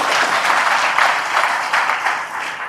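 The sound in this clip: An audience claps during a storytelling discourse, a loose, uneven patter of many hands that swells and dips, with bursts of stronger clapping and a softer fade toward the end.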